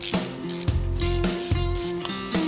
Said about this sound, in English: So we'll pull these three out, these three bolts here. Take it loose.